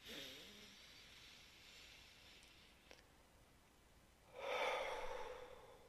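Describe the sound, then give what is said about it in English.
A deep breath is drawn in through the nose and let out through the mouth. A faint inhale is followed, after a pause, by a longer, louder, breathy exhale. “we're going to need to take a deep breath again because it's going to be emotional. This is an emotional ride we're going on. Do it with me. We breathe through your nose and out your mouth.”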